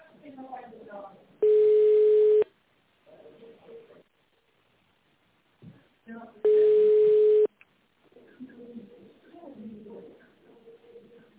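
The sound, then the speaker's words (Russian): Telephone ringing tone while a company phone line transfers a call to an internal extension: two long, loud, steady single-pitch tones, each about a second, separated by stretches of recorded voice speaking. “Перевод звонка на внутренний номер 5015. Минуточку.”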